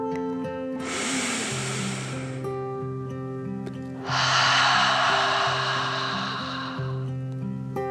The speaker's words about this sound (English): one more deep dragon breath in and out